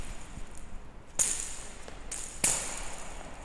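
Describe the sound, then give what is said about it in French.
Jingling of a tennis ball fitted with small bells, as used in blind tennis: two bright, rattling bursts with faint ticks between them, quiet overall and with no voices. “Le son que vous entendez, c'est le son d'une balle dans laquelle ont été mis des grelots.”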